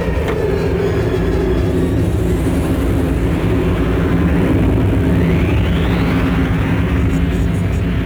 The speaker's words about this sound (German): Sie breitet das Antigravfeld aus.